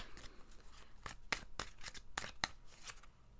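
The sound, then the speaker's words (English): Tarot cards are shuffled and drawn, giving a faint run of crisp flicks and snapping slaps at an uneven rhythm, several sharp clicks standing out among softer rustles. “All right, let's go ahead and pick a card for the week.”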